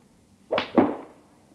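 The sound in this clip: Golf club swing: two quick, airy swishes sound in close succession, the second slightly stronger and trailing off more slowly.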